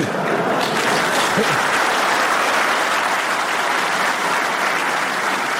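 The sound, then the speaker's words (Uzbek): Applause greeting the installation of a statue: dense, steady clapping that continues at an even, loud level for the whole clip, with no voices standing out. “Endi qarsaklarga e'tibor bering.”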